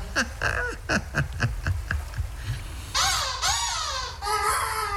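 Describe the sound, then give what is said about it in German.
Herring gull calls: a rapid series of short, clipped notes gives way to a few loud, harsh, nasal cries whose pitch sweeps downward, with no voices. “Das ist Emma, die Silbermöwe.”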